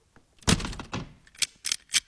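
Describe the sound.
A peasant shuts and locks a room door from inside: a heavy thump with a short rattle, followed by a few sharp, clicking knocks of the lock.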